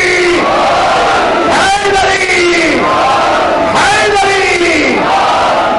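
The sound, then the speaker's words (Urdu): A crowd at a religious gathering shouts a slogan raising Ali's name in reply to the Naara-e-Haidari call. Loud voices in unison rise in several swelling shouts, one after another. “پوری طاقت کے ساتھ، جگر کے طاقت کے ساتھ علی کا نام بلند کریں. نعرہ حیدری،”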